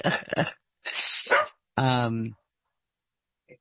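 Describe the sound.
A dog barks in three loud, drawn-out bursts in quick succession. The last burst is more tonal and whining, and silence follows.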